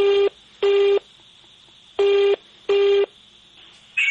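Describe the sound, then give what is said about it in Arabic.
A telephone call is placed from a radio studio, and the ringback tone sounds in paired beeps: two short tones, a pause, then two more, with a fifth starting at the end. The tones are loud and steady, with no talking. “تعالي نجرب نتصل ويا رب يرد علينا.”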